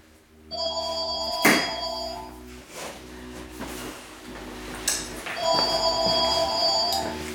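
A telephone bell rings in two bright, trilling bursts, one early and one late, with a few dull thuds and knocks in the quieter gap between them.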